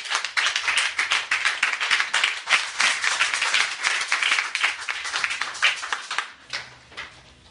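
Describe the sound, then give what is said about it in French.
A church audience applauds the Lord, with dense, steady hand clapping that holds loud for most of the stretch before thinning and fading near the end. “Quelqu'un peut dire amen. Amen. Quelqu'un peut acclamer le Seigneur.”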